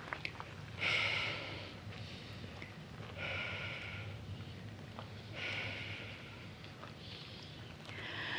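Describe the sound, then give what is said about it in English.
Slow, deliberate exhalations onto a crystal held in the hand: a few soft, airy breaths separated by long pauses, fairly quiet, with no talk. “And we begin by 3 sacred breaths of life onto our friend, our crystal.”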